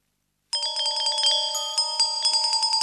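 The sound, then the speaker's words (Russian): Fairy tinkling and ringing: a bright, shimmering cluster of high bell-like tones with rapid repeated chimes. It starts abruptly and stays loud and glittering throughout, with no voices. “А почему она звенит? Феи так разговаривают.”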